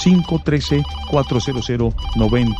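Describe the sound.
A telephone ringtone signals an incoming call to a radio show, sounding as short, steady-pitched electronic tones in quick melodic bursts.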